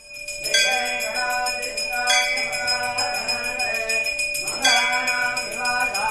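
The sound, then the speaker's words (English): Bells ring out at a Nepalese temple gathering, several bright metallic strikes recurring every second or two, each leaving a sustained shimmering ring that overlaps the next so the tone never fully fades. “That's the sound of bells ringing out yesterday at a temple in Bothell, where more than 100 people came to pray, light candles, and share updates.”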